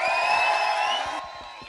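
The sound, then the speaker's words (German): An audience at an event with live bands cheers a newly premiered song, giving loud whoops and high, sustained shouts that drop off sharply after about a second, leaving quieter crowd noise. “Nochmal einen dicken, fetten Applaus für diesen tollen Song.”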